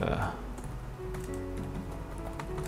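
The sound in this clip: Typing on a computer keyboard as a product description is entered: many quick, irregular key clicks continue throughout at a fairly soft level.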